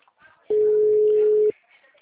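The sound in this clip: A telephone busy tone sounds during a call attempt: one steady, mid-pitched tone lasts about a second, with faint voices murmuring before and after it.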